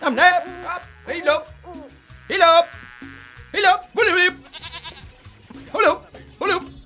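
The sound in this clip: A goat bleats repeatedly: several wavering, nasal cries in uneven bursts, each short and loud, separated by brief pauses with faint low noise beneath.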